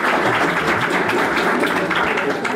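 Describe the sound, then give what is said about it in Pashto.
Audience applause for a poet at a Pashto poetry recital: dense, loud, continuous clapping that fills the whole stretch. “چکچک ورته وکړئ”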